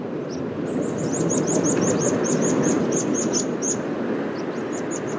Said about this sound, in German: Und da sie im Herbst auf den Nordseeinseln so häufig sind, ist für mich das Gezippel der sich südwärts verabschiedenden Wiesenpieper eben ein typisches Herbstgeräusch.